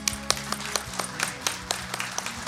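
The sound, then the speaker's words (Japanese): A handful of people clap to welcome a company president at an investor presentation, with sparse, separate hand claps that come at an irregular pace and stay faint. “皆様拍手でお迎えください。”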